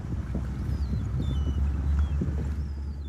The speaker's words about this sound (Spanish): sale a pescar bacalao cada mañana en su lancha a motor